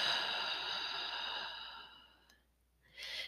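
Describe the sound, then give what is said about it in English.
A deep, complete exhale out of the mouth during guided belly breathing: a long, soft, breathy hiss that slowly fades to silence, followed after a brief pause by the start of another breath. “Inhaling deeply into the belly. Exhaling completely out of the mouth.”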